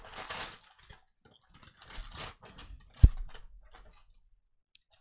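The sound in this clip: Tearing open a package of lithograph-style art prints: a few bursts of crisp ripping and crinkling paper, then a single sharp thump near the end.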